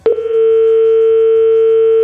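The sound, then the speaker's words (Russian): Steady telephone dial tone while placing a call: a sharp click, then one unbroken, even electronic hum that continues alone at the same pitch. “Теперь я звоню.”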